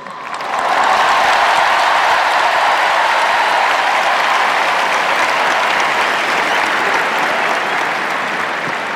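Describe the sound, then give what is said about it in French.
A huge stadium crowd at the Stade de France roars for Pope Leo XIV at a youth gathering. The noise swells within the first second, then holds as a loud, unbroken wall of cheering and clapping. “La foule du Stade de France qui scande le nom du Saint-Père.”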